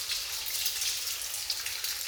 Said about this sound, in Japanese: 美容室でもこのように髪を洗っていただくことがありますが、本当に幸せなひとときですわよね。